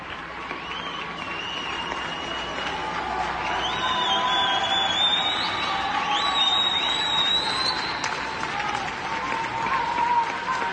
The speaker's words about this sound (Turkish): teşekkür etmek için 22'de balkonlara ve camlara çıkarak alkış ve tezahüratlarda bulundu. Ortaya çıkan muhteşem görüntüleri izlemek ister misiniz?